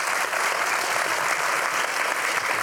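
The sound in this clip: A studio audience applauds to welcome a guest onto a talk show, a steady, even wash of many hands clapping at constant loudness throughout, with no voices standing out.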